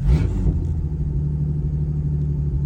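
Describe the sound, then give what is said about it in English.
A car engine running super lean with a rev-hang fault: a short loud burst at the start, then a steady low rumbling drone that lingers without dropping away. “It still rev hangs really bad and the AFR is running super lean. See that? It's just rev hanging super long.”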